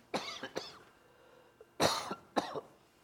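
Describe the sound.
Coughing from something caught in the throat: two short coughs, a pause, then two more, harsher coughs. They are fairly faint, with no talking.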